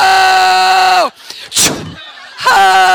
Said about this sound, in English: Get my fire gun out. Fire gun time.